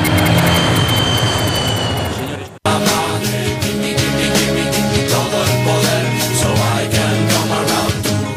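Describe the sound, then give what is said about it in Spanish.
An airplane coming in to land produces a loud, broad jet roar for a few seconds, which ends in an abrupt cut to a different, rhythmic sound. “Escuchamos justo al finalizar ese corte el sonido de un avión aterrizando.”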